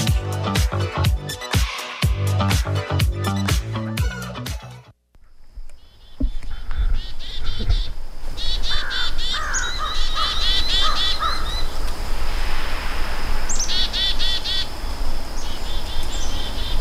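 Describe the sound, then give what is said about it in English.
Chickadees giving alarm calls while mobbing a bird predator, with a crow nearby: loud harsh caws fill the first seconds, then after a brief pause come many rapid, high-pitched scolding calls. “Yeah, we've got some angry little chickadees there.”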